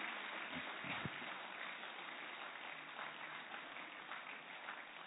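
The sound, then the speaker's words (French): A church audience applauds to acclaim God during a French-language worship service, a continuous, muffled patter of many hands clapping at a steady level for about five seconds. “Est-ce que nous pouvons acclamer le Seigneur notre Dieu?”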